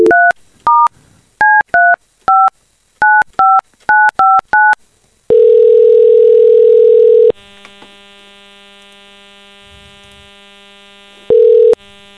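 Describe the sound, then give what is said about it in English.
A telephone number is dialed on a touch-tone keypad: a rapid series of many short two-tone beeps, then a long steady ringing tone, a quiet hum, and a final brief ring tone near the end. “So we're going to call one of those people who texted us.”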